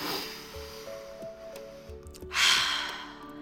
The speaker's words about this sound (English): let's take a deep breath